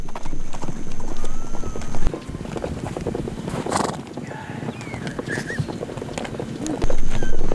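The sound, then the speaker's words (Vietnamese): Many hooves clatter as a herd of mares and foals runs across grassland, chased by nomads. The hoofbeats form a dense, rapid, uneven drumming over steady wind noise. “Nhóm du mục đang đuổi theo những con ngựa. Họ đuổi theo ngựa mẹ và ngựa con cũng chạy theo.”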